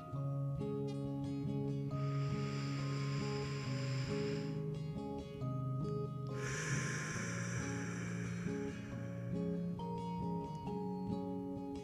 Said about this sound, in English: Let's take three deep breaths together as we begin to relax our body and mind.